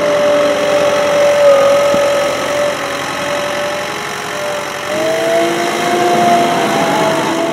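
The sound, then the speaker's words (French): A snow groomer's engine runs in a steady drone on cross-country ski trails. The tone is even and continuous and lifts slightly toward the end. “Mais si le ciel pouvait gratifier les teignons d'un peu de neige supplémentaire, ça ne serait pas de refus, en tout cas pas pour Jean-Claude Beuret au volant de sa dameuse.”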